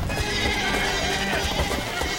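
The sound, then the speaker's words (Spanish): Sheep and goats bleat while a flock is gathered and herded, the calls rising over a dense, steady bustle of the animals throughout. “Los hermanos tratan de reunir al ganado. Corren de un lado a otro guiando el rebaño. Cada cabra y oveja son un bien preciado que no debe de abandonarse.”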